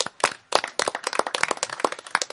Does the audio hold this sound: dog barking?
no